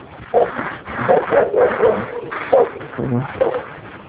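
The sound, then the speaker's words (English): Dogs bark, yip and whimper in a rapid, uneven string of short bursts that overlap and continue throughout, with loud yelps mixed with higher whining cries. “Dogs. I don't know if they're happy dogs or they're angry dogs. You really can't tell the difference.”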